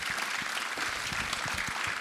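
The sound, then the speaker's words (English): A church audience applauds to welcome a newly appointed associate pastor. Many hands give a sustained, dense round of clapping that stays steady throughout. “Yeah, give him a round of applause, absolutely.”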